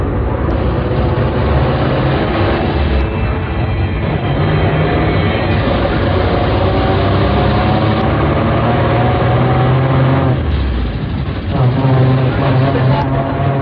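City bus engine running while the bus drives along, heard from inside the bus: a loud, steady low rumble and drone that continues unbroken through the whole clip.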